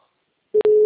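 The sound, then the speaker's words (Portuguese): A telephone ringing tone on an outgoing call: after near silence, a steady mid-pitched beep starts, cuts out briefly, then resumes and holds to the end. “Tô ligando pra mãe.”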